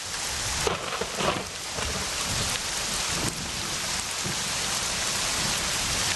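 Steady rain pours down in a dense, continuous hiss of drops striking surfaces. The loudness stays even throughout, and no voices are heard.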